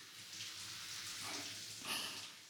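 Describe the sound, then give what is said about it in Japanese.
Shower water rinses someone's hair as a soft, steady spray hiss with slight swells in loudness, quiet and without talk. “ではこのまま頭の方も軽く流しますね。”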